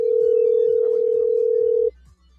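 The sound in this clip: A single steady, mid-pitched ringback tone on a telephone call holds for about two seconds, then cuts off, leaving a faint low hum.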